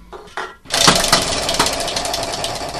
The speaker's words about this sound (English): So, champion, just spin it. Spin the wheel of games. Let's hear it.